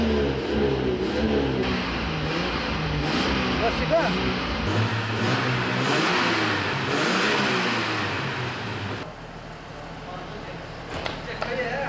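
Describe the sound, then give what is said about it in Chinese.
Car engine revving as the accelerator is pressed on an off-road vehicle built for sand dunes; the engine roars steadily for several seconds while people talk over it. “我能不能上去踩一下油门，听一下声音？ 发动，发动”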